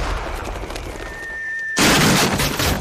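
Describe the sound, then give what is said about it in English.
Furniture fired from a cannon crashes in a video game: a thin steady whistling tone gives way to a sudden loud, broad crash that roars on to the end. “He's firing his recent furniture purchase from McCannon to his house.”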